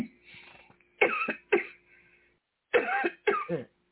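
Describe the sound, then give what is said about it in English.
Coughing from a tickle in the throat: four sharp, harsh coughs in two pairs, preceded by a few softer throat noises. “Excuse me. I had a little tickle in my throat.”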